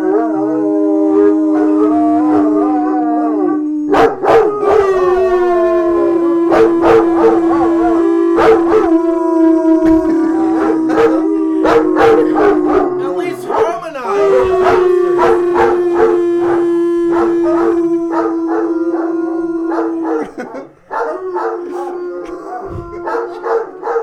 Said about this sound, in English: Now there's a bark.